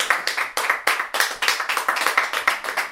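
An audience claps after a song performance. Many sharp claps come in a brisk, fairly steady run, loud and continuous, with no talk over them.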